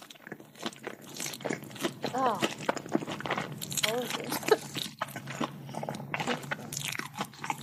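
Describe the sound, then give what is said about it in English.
Crunchy biting and wet chewing from a woman eating cereal for an ASMR video, with many irregular crisp crunches at a steady level, while people talk over the eating. “Is that her eating? That is her.”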